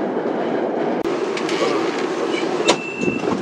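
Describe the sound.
A subway train pulls into Jiaomen East station with a steady rumbling roll of wheels and car noise, clicking over the track and giving a brief high squeal near the end.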